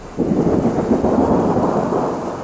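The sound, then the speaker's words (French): Thunder rolls through a storm of warm rain and angular hailstones falling on green hills. A deep, loud rumble starts abruptly, holds, and slowly fades, with a steady rain hiss underneath. “Un oppressant mélange de pluie tiède et de grêlons anguleux s'abattait sur les collines verdoyantes”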